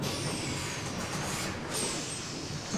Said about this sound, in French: Montgomery, car ça y est, tu entends ? Oh ! Son bus vient enfin d'arriver